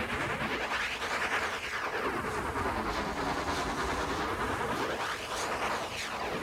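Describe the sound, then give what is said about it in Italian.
A synthesized steam locomotive sound opening a funk rock track, made of filtered hiss whose tone sweeps up and down in broad, repeating arcs, continuous and fairly soft with no voices. “Il suono sintetico di una locomotiva.”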